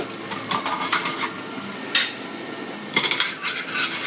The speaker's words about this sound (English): So you put your butter on the pan.